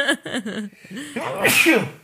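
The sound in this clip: A single loud, breathy sneeze bursts out after a few short voiced sounds, then trails off quickly.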